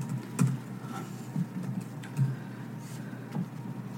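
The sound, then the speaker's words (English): Typing on a computer keyboard: faint, irregular clicks of keys pressed in short uneven bursts against a quiet, low background hum. “You have to give me a second because I have to, like, type everything in.”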